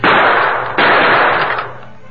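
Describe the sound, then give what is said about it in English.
Gunshots fired at a big, heavy iron door lock set in pine boards: two loud, sharp blasts less than a second apart, each followed by a harsh ringing decay. “The Lone Ranger drew one of his guns. Bullet may smash it.”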